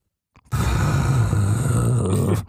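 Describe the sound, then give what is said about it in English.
A voice imitates heavy breathing into a microphone: one long, loud, rough exhale that holds steady for about two seconds, then stops abruptly. “He just sits there and breathes into the microphone. It just goes like this.”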